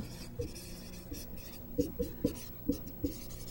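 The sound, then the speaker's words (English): Writing by hand while laying out Pascal's triangle in a maths lesson: several short scratchy strokes, some in quick clusters, faint over a low steady hum. “Hopefully I have enough room to write this.”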